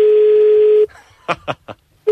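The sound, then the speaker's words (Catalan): A telephone number being dialed for a bar in Rosario: a steady dial tone, then three short separate bursts of dialing, and a tone returns at the end. “Telèfon d'un bar de Rosario a l'atzar i que la sort ens acompanyi.”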